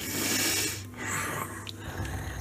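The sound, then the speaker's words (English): A human voice imitates a boar sniffing and snuffling at someone, producing breathy, noisy snorts and sniffs. A strong rush of air is followed by shorter, rougher puffs, with no spoken words. “you see that there's this boar that just walked up to you and just smelling at you”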